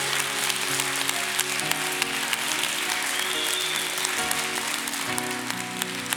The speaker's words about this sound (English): put your hands together and welcome Pastor Josh Johnson.